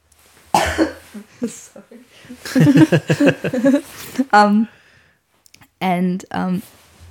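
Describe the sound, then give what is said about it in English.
Coughing from a person with a COVID cough: several harsh bursts, some with rough voiced throat sounds, separated by brief pauses. “got the old COVID cough here. Good times. I just felt myself inhale a bit of fluff.”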